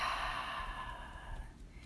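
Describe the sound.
One slow, airy breath during a guided relaxation exercise, drawn in through the nose and let out through the mouth, a soft, steady whoosh that gradually fades, with no talking.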